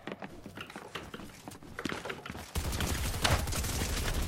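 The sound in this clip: Automatic gunfire in a video game. Scattered sharp shots give way midway to a dense, continuous spray of fire that stays loud until the end.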